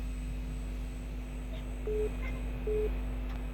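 A telephone tone sounds after a call cuts off: two short, steady electronic beeps of equal pitch separated by a brief gap, over a constant low line hum.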